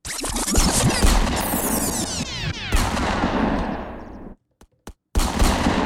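Loud, dense gunfire sound effect: a rapid, continuous barrage of shots that cuts out abruptly, then one short crack and a final burst of fire.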